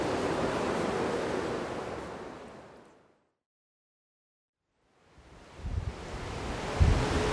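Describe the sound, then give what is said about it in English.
Strong wind blows through a park in Japan, a loud, rough rushing that fades out to silence midway, then returns with heavy low gusts buffeting the microphone. “The wind is only getting crazier”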